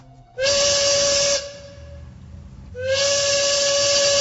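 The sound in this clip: A train's steam whistle gives two loud, shrill, steady blasts, the first about a second long and the second running to the end, with softer hissing in the gap between them.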